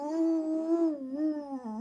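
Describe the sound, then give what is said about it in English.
A voice imitates a dog lying on a porch beside its owner's chair, holding a drawn-out, howl-like tone whose pitch wavers and dips, heard alone. “there's an old guy sitting on the porch in his chair with his dog laying on the porch next to him, and the dog is going,”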